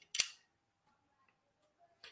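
A screwdriver bit shaft clicks into a handle from a bit set, making one sharp, bright snap. Silence follows, with another short click at the very end.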